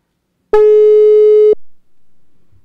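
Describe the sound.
Telephone tone heard while calling someone: one steady, pure electronic beep lasting about a second, loud and alone, then quiet.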